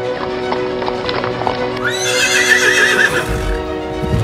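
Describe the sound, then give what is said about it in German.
Horses gallop in a steady clip-clop of hooves during an escape ride, and a bright, wavering neigh rises over the hoofbeats in the middle before the galloping carries on. “Quasimodo, Esmeralda und Kommandant Phoebus ritten weit, bis sie vor der Stadt Paris waren.”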